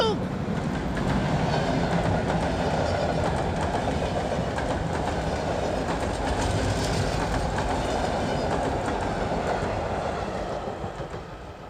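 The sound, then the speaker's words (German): An express train rushes past with a loud, continuous roar and rumble of wheels on rails, holding steady throughout and easing slightly at the very end. “Der D-Zug!”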